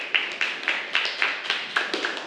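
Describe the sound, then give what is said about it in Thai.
Classroom clapping as children applaud a classmate who drew an answer correctly, a steady, evenly spaced series of sharp group claps in unison. “ตอนนี้เพื่อนได้วาดมาถูกต้องค่ะปรบมือให้กับเพื่อนหน่อยค่ะ”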